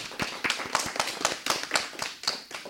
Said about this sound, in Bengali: আমাদের ছোট্ট বন্ধুর জন্য এবারে জোরে একটা করতালি।